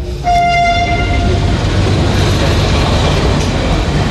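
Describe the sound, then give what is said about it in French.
A train at Bologna railway station sounds a short horn tone at the start that fades within about a second, over a loud, steady rumble of rolling rail cars that carries on to the end. “on retrouve tout de suite notre magistrat à la gare de Bologne”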